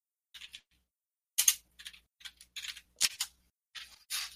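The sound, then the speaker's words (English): Keys clatter on a computer keyboard in short, uneven bursts of sharp clicks separated by brief pauses, fairly faint and with no voices. “So you type that in Google? Is that where you're typing that?”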